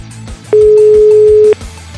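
A telephone line tone sounds while a call is placed: one loud, steady mid-pitched tone held for about a second, then cut off, over a low, rhythmic background.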